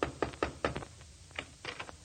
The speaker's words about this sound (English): is about to knock on the door of the Middletown Little Theater League